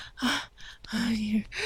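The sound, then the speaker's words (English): Heavy, gasping breaths from a woman during sex, a few breathy bursts broken by short voiced moaning tones. “Put your hand up my throat. Feel how hard I'm breathing. Desperately, I'm gasping.”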